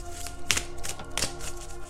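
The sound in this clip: Soft riffling and tapping of a tarot deck being shuffled, with a few cards jumping out; faint taps and rustling over a low steady hum.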